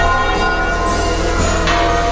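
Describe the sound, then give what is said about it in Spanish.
Church bells of Madrid's churches ring out together in a dense, continuous peal, a steady wash of overlapping metallic tones at an even loudness throughout. “coincidiendo con su llegada, han repicado así las campanas de los templos de Madrid.”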